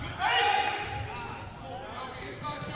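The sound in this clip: Basketball dribbled on a court during a game, a few dull bounces under a talking voice and busy background noise.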